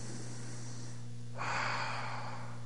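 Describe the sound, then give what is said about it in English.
A single deep breath drawn in, a soft airy rush that swells partway through and holds to the end, over a faint, steady low hum. “Without controlling or directing anything, just take a deep breath in”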